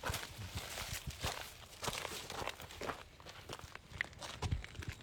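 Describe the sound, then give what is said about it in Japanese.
Footsteps walk along a narrow ridge path between rice fields, a steady, continuous series of many soft crunching steps at an even walking pace, heard alone without talk. “もうあぜ道を歩いていきます。”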